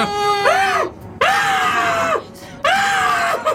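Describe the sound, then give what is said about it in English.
A voice imitates the quiet squealing of an unconscious creature still making noise: three drawn-out, strained squeals with rich overtones, each arching up and then down in pitch, separated by short gaps. “Is it quiet squealing? It's like...”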